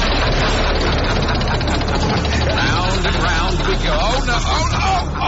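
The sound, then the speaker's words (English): A Wheel of Doom prize wheel spins on a game show, giving off a dense, steady rattling clatter throughout. Voices come in over it toward the end. “So, are you still willing to take a chance and spin the Wheel of Doom? Let's spin it. All right, 3, 2, 1, go! Spin!”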